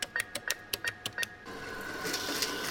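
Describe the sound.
An ATM dispensing cash: a quick run of about nine sharp mechanical clicks and whirs in an even rhythm, then a continuous rushing, buzzing feed of banknotes, quiet overall.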